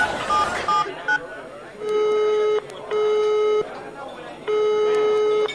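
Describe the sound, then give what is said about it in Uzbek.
Telephone keypad tones as a number is dialed: a few quick dual-pitch beeps, then three long, steady ringing tones separated by short pauses. “Xohlagan raqam teramiz.”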